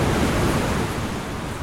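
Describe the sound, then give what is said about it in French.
Ocean surf roars steadily at Parlementia beach, a broad, continuous wash of breaking waves mixed with wind buffeting the microphone, easing slightly in loudness toward the end. “Donc là, on est sur la plage de Parlementia, on marche sur le sable. Donc on va se mettre à l'eau sur la vague de Parlementia”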